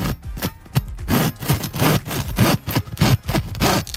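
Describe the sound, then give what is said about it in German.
A hand saw cutting through a wooden batten: many rhythmic back-and-forth rasping strokes, each a loud gritty scrape, following one another at a quick, even pace with no talk. “Okay, Stück zurück und jetzt wird gesägt.”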